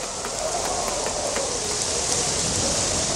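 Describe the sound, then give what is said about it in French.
Hail falls in a dense, steady patter: a loud, continuous hiss of impacts with scattered sharper ticks poking through, and no voices. “la grêle! Allez, vite tout le monde à l'abri ou vous allez être assommés!”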